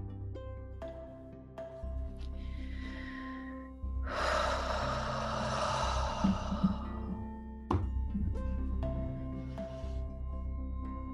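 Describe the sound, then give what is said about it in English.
Deep controlled breathing from a guided breathing exercise: a soft inhale, then a long, loud, airy exhale lasting a few seconds, over a steady sustained musical drone. “So one more breath, counting to four. And when you're done that full cycle, just release any controlled breath.”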